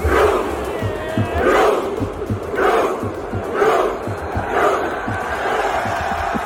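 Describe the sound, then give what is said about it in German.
A stadium crowd does a Viking rowing chant after a Norway goal at a World Cup match: massed voices roar in rhythmic swells about once a second over steady crowd noise, with low beats marking the pulse. “Wenn Norwegen gewinnt oder ein Tor schießt, rudert nämlich das ganze Stadion. Also die setzen sich dahin, strecken die Arme nach vorne und rudern wie Wikinger.”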